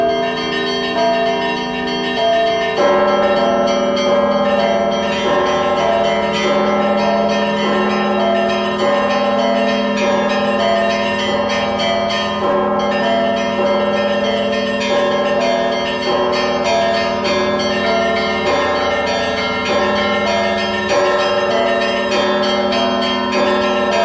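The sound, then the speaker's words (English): Many distinctly different church bells ring together at a monastery, making a loud, dense, continuous peal of overlapping pitches that is sustained throughout without any talk. “After that comes a whole garland of the most distinctly diverse bell sounds, or voices, St. Daniel's Monastery.”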